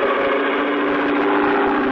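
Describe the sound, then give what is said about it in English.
An airboat's powerful airplane-type propeller motor roars as the boat takes off over shallow bayou water, a loud, dense, steady drone that holds constant throughout. “And brother, I mean took off. What a ride. The airboat half plane, half skipped over the shallow water of the bayou.”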